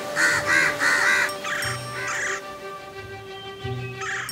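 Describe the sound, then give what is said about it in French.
Crows caw as they gather around a nest. Many harsh calls come in bursts, starting with a quick run of three and followed by scattered single caws over a faint steady tone. “Elle appela tous les autres corbeaux et très vite, ils se retrouvèrent tous autour du nid de Monsieur Croix.”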